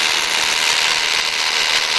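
Steady, loud machine drilling as a hole is bored into compact rock, a dense continuous grinding roar with no pauses and no voices.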